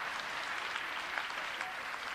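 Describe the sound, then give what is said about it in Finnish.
A church audience claps for Jesus: a steady, dense patter of many hands that continues unbroken from start to finish. “Yes, give a clap for joo, Jesus. Come on. Taputukset Jeesukselle.”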